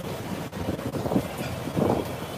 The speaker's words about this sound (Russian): Слушай, ветрило страшный. Вот мы тут стоим, тут ветра мало.